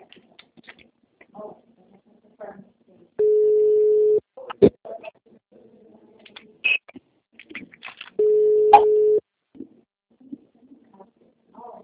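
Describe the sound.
A telephone call tone sounds as two steady, level beeps, each lasting about a second and spaced several seconds apart. Faint, scattered small noises fill the quiet between them.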